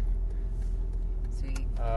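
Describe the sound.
Steady low rumble of a car being driven in the early morning, heard from inside the vehicle as a constant engine and road drone, with a brief voice near the end.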